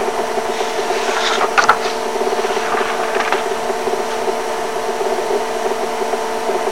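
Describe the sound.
An electric razor shaves with a steady, even buzzing drone and a rough, rasping scrape layered on top. It carries on without a break the whole time, with a couple of brief sharper scratches near the start.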